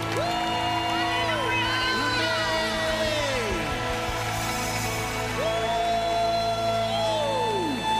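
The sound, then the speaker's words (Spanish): Applause and cheering from an audience at a church revival gathering: dense, steady clapping across the whole clip, with voices whooping and shouting in rising and falling glides over it. “Give them a hand. Denle un aplauso, por favor.”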